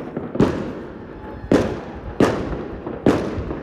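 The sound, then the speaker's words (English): Four loud fireworks go off in a garden around midnight on New Year's Eve. The sharp booms come at uneven intervals, and each one trails off into a crackling, rumbling decay. “there are fireworks going off. My God. I'm in my garden. There's some really noisy ones.”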